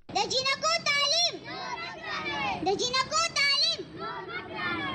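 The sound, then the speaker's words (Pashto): Children, mostly girls, chant slogans together at an activists' protest outside the Peshawar Press Club, their overlapping high voices rising and falling in repeated shouted phrases that continue without a break. “دغه نارې د ډاکټر خان تحریک فعالینو پیښور پریس کلب مخامخ وهلې چې زیاتره ماشومان جنکۍ وي.”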